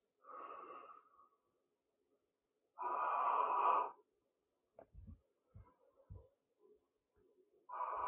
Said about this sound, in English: I'll do it on 2 breaths. 3 pumps on each breath.